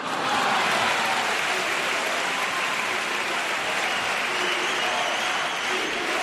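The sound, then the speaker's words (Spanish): An audience gives sustained applause in response to a chirigota performance, a dense, even wash of many hands clapping at a steady loud level for several seconds. “Bueno, esta es la respuesta del público.”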